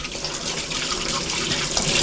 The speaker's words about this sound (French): On les lave bien à l'eau chaude, comme ça ça enlève les produits